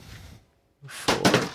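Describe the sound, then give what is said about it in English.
A large ten-sided die (D10) rolled on a table makes a brief clatter of a couple of hard knocks that follows a short quiet pause. “For those at home, I just rolled like a giant D10”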